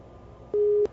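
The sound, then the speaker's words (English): Ringing tone of a Skype phone call: a single steady, mid-pitched electronic beep lasting about a third of a second over faint background hiss. “At least we got it ringing. That's a good sign.”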